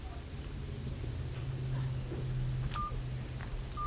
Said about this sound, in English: And the best part is you can dial a number. I will show you right now.